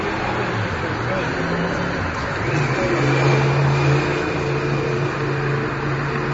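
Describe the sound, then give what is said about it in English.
Street traffic in San Francisco: a constant wash of engine hum and road noise, with a vehicle's tone swelling briefly midway before the steady roar continues. “If you listen to the sound of the street”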